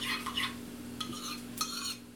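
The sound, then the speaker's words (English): Spoon scraping through a pot of soup as kashk thinned with broth is stirred in: a few bursts of rough, scratchy strokes with a light metallic edge over a low steady hum. “we ladled some of the broth into a bowl with the measured kashk and mixed it until it was nice and smooth. Then we stirred it into the soup.”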